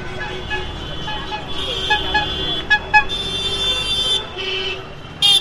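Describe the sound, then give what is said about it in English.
Car horns toot over the steady traffic rumble of a busy residential street in Calcutta, India, in December 2016. Several short honks stand out above a continuous, fairly dense bed of engine noise. “This is the sound of a neighborhood in Calcutta, India, in December 2016.”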